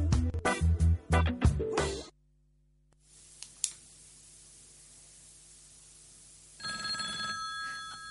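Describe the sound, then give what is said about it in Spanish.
A telephone rings with an incoming call. Rapid, bright bursts of ringing come first, followed by a stretch of faint hiss with a few clicks, then a steady electronic tone at the end. “yo pensé que no íbamos a tener llamada hoy, pero parece que sí. Bueno. Bueno, es insistente.”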